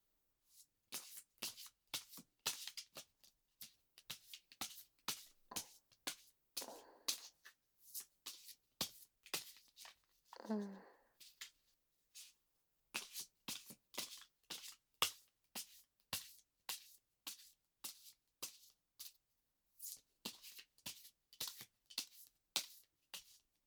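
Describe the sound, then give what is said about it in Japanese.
Playing cards shuffled by hand, many crisp slaps and flicks in quick uneven clusters, with a short smoother riffle near the middle; soft throughout with no talk. “それじゃあ、カードをシャッフルしていくね。”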